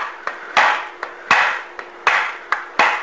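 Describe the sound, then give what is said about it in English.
Hammer taps strike a stuck part to loosen it: eight sharp knocks in a steady pattern that alternates lighter and heavier strikes. Each heavy hit rings briefly, and no one speaks. “my adjustable wrench isn't going to work. Needle nose pliers aren't going to work, so I'm going to kind of tap at it here.”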